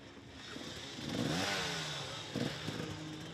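A motorcycle engine revs in uneven surges as several riders push the bike uphill, its pitch swinging up and down, with bursts of clattering and scraping.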